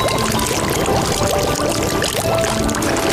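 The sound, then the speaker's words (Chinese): A large basin of hot water is poured into spices and local chili sauce frying in a pot. The rush of liquid is loud and continuous, with hissing and bubbling throughout and no voices. “香料和本地辣椒酱炒出香气，再加入一大盆热水”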